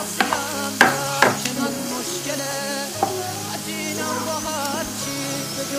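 Potato chips fry in a pan with a steady, bright sizzle while they are stirred. Sharp scrapes and knocks from the stirring utensil stand out early, then settle into softer, continuous rustling under the hiss.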